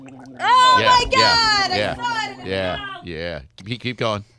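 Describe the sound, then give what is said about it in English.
Loud, throaty gargling from a person, a voiced bubbling rattle held for about three seconds, then a few shorter gurgling bursts. “Start the gargling, loudly. Loudly.”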